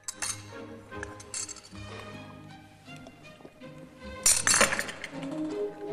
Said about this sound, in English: After banging the cup with his spoon, he slurps the tea down in one and gets his finger caught in the handle.